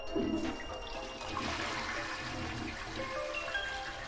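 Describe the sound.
A toilet flushing, with a steady rush of water through the bowl that holds at an even loudness for about four seconds, with no voices.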